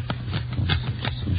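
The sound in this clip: Playing cards counted out by hand, giving a quick, even series of soft papery flicks and snaps about a third of a second apart, with no talking.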